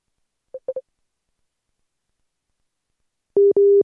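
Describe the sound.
A telephone busy tone sounds after a call is cut off: three short beeps, a pause, then two longer steady tones at a slightly lower pitch, alone in silence.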